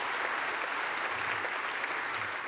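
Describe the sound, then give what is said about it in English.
Applause rises from a church audience welcoming ministry partners, a dense, steady wash of many hands clapping that holds at an even level throughout without any voices on top. “So put your hands together and let's welcome them right now.”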